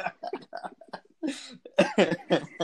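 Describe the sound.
Throat clearing from someone with something caught in the throat: several rough, raspy bursts of hacking and coughing with short pauses between them. The effort grows heavier toward the end.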